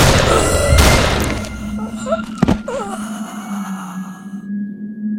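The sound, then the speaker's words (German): A single sharp gunshot cracks out in an audio drama, preceded by a burst of noisy commotion and surrounded by moaning, gasping voices, with a low steady hum lingering afterward. “Ich schieß!”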